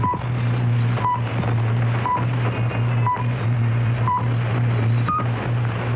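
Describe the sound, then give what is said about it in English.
Swiss chronometer radio time signal: six short, steady electronic pips spaced one second apart over a constant hiss and low hum, the final pip slightly higher in pitch. “First, here is a Swiss chronometer to give you the exact time. At the last sound, it will be 4 hours Greenwich Mean Time.”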